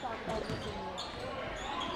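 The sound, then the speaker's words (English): A basketball is dribbled on a court during a game, with a few soft thumping bounces faint beneath a continuous wash of background noise. “Knee-high dribble with the right hand”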